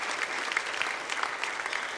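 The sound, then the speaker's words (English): Audience applause during a sermon: a steady, dense wash of clapping that fills the whole moment at an even loudness, with no voices heard. “You can clap for those truths.”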